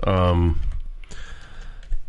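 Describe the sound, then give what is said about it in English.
Typing on a computer keyboard follows a brief spoken phrase: a run of light, irregular key clicks, fairly faint and uneven in rhythm. “I'm going to type this in.”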